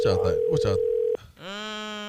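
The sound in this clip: Telephone dial tone as a call is placed: voices talk, then after a brief pause a steady, buzzing tone sets in and holds unchanged.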